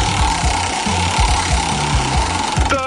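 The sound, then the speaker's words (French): A spinning prize wheel in a riddle game ticks in a steady run of many low clicks under a constant loud hiss. “Bon, on va faire tourner la roue, c'est parti, la roue des phrases.”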